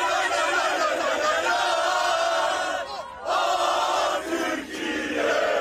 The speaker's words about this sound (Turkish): Türk futbol severler kafile otele ulaştığında meşaleleri yaktı, tezahüratlar yaptı.